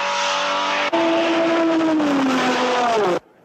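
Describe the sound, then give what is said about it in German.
Porsche and Ferrari race cars roar through a chicane in a loud, sustained engine howl. It dips briefly, then holds a strong tone that slides gradually lower in pitch before stopping abruptly. “We may expect the cars through the chicane any moment now. Will it be Porsche or Ferrari in the lead?”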